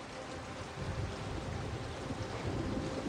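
Rain falling on a dark, jagged shoreline: a steady, dense hiss of water that fills the whole clip at an even, moderate level, with a low rumbling undertone.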